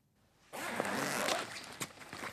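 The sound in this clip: A zipper is pulled open on a backpack before a large green folder is drawn out: a sudden sustained rasp, then a couple of short scraping clicks as it trails off.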